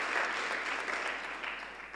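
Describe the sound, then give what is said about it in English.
Audience clapping at a talk about a ministry that feeds poor children, a short steady patter of many hands lasting about two seconds and tapering slightly at the end. “You can clap for that. Go ahead.”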